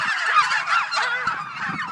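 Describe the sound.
A flock of farm turkeys kept for meat calls out noisily in a field. Many overlapping honking, gobbling cries form a continuous, loud chorus.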